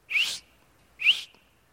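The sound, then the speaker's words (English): A person whistles two short, bright, high notes in the manner of a shepherd calling sheep. Each blast rises slightly in pitch and is separated by a brief silence. “when I whistle, I want you to look at me.”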